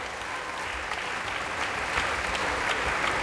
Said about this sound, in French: Et un public qui n'est pas prêt de s'en aller, vous l'entendez.